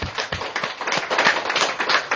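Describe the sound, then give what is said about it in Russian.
Audience members clap for one another in a brisk, dense round of applause, with individual claps snapping unevenly through the steady patter. “Давайте похлопаем друг другу.”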